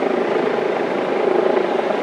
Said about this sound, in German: Außenpodcast, Hubschrauber, Hubschrauber, Außenpodcast. Ich weiß nicht, wonach der sucht.